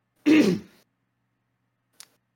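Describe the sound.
Throat clearing: one short, rough burst from a throat, followed by a faint click and then silence.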